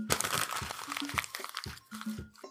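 Paper is crumpled into a ball by hand in a quick burst of crinkles, crackles and crunches. The sound is quiet, with no talk.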